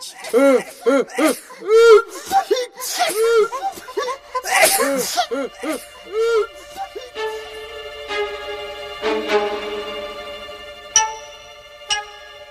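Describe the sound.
Several people sneeze loudly from pepper in a rapid string of many sharp, voiced bursts. A quieter stretch of sustained tones follows.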